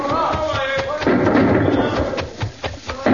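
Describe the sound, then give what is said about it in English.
Gunshots fired from a caravan in a radio drama, heard as a few sharp thuds and bangs over a dense, noisy bed of sound, with a couple of abrupt hits near the end. “Drop to the ground. Someone's shooting at us. It's from the caravan. They must have spotted us and thought we were the hijackers.”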